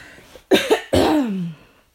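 A person coughs: two short, sharp bursts come first, then a longer, throatier, voiced cough that falls in pitch before fading out.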